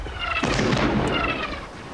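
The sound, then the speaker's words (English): Artillery shells strike Fort Wagner in the distance during a barrage: a deep rumbling boom swells up early and rolls on, then fades toward the end. “General Strong studies Robert's anxious face as the barrage of shells continue to strike Fort”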